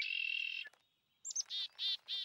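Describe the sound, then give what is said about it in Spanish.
A red-winged blackbird calls with a high, buzzy sustained note, then falls silent before a couple of quick chirps and three longer, evenly repeated high notes. “A la izquierda un mirlo con alas rojas.”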